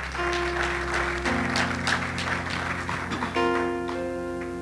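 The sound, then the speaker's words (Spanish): Church audience applauding, a steady wash of clapping throughout, layered over sustained keyboard or organ chords that shift partway through. “Dele un aplauso al Señor, hermano, porque se lo merece.”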